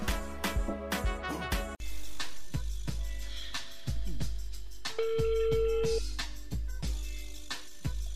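Telephone dialing and ringing as a call is placed to a guest: a steady tone of about one second sits among regular, punchy percussive hits that run throughout, with no voices.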